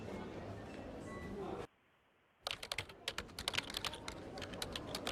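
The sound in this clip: Soft typing on a computer keyboard while a customer's feedback is recorded during a service call: many light, irregular clicks start after a brief silence and stay faint throughout.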